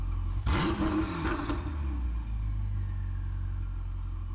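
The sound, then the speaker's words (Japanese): A 2017 Ferrari 488 GTB's 3.9-litre twin-turbo V8 bursts into a short, loud rev, then settles into a low, steady rumble that carries on to the end. “3.9リッター V8 ツインターボから生まれるフェラーリサウンド”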